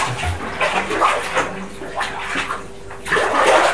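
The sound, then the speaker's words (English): Water sloshing and splashing as a young child is washed off while sitting in a bath. It is a continuous, uneven run of swishing water, with a louder burst near the end. “Right, sit down and wash it off.”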